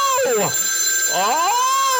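A telephone rings with a warbling electronic tone that swoops up and down in pitch twice in quick succession. A thin, steady high whine sounds underneath.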